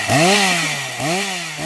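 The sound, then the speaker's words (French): A chainsaw held by a shady man revs in loud bursts, its engine whine climbing sharply and then holding at a high, buzzing pitch; three revs, the last one short, with a lower idle between them. “Et un pousseux louche avec une scie mécanique dans les mains.”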